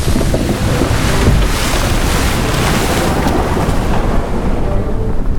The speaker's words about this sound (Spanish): Barco.